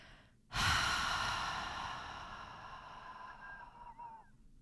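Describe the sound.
A single long exhale through the mouth during a guided relaxation exercise: a breathy rush of air that starts abruptly and then fades slowly over about four seconds.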